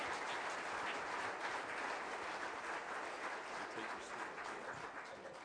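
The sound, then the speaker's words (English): An audience at a Central Assembly gathering applauds to welcome a speaker back to the stage, a steady wash of clapping that stays even and tapers slightly at the end, with no voices over it. “Let's give him a hand.”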